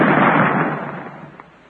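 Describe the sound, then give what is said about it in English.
An explosive charge detonates after its fuse is lit: one loud, booming blast that slowly dies away over under two seconds. “Get back. The fuse is lighted. Maybe this time we'll do it. Well, if it don't, we ain't going to let you fire it no more.”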